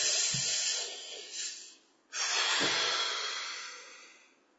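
A slow, deep breath during a warm-up stretching exercise: one long, airy inhale, a brief pause, then an equally long, hissing exhale that gradually fades, with no talking.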